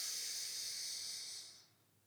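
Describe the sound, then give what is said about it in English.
A slow, steady exhale through the right nostril during alternate-nostril breathing makes a soft, airy hiss that holds level and then fades out near the end. “lift the head a fraction, release the thumb, exhale right for four”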